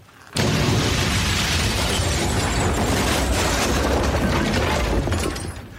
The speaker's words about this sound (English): The house fell down and went boom.